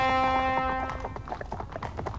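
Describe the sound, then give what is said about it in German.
Horse hooves clatter through a quiet morning village as fanfares sound. A held brass-like note opens the passage, then many quick, uneven hoof clops follow. “Hufe klappern durch die morgenstillen Dörfer, Fanfaren blasen.”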